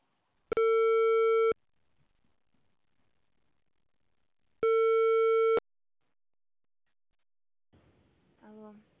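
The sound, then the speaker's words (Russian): A telephone ringback tone sounds as an apartment-complex intercom calls a resident: two long, steady buzzing tones about a second each, separated by a few seconds of silence, followed by a faint voice near the end. “Начинаем звонить абоненту. Ожидайте соединения.”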